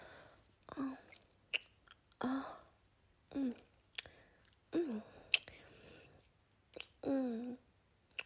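Eating and chewing food: several wet, squishy mouth bursts separated by quiet pauses, with a few small clicks and smacks in between, all fairly soft and heard alone.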